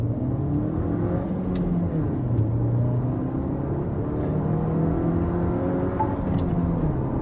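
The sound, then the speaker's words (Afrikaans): Car with a 1.2-litre petrol turbo engine rated at 96 kW and 205 Nm, driving in Gauteng's thin air: a steady engine drone over road rumble, its pitch shifting gently at a moderate level, with no voices. “Die 1.2 petrol turbo skop 96 kW en 205 Nm uit, voldoende vir die meeste kopers.”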